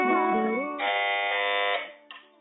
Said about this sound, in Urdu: team اے نے پہلے buzzer بجایا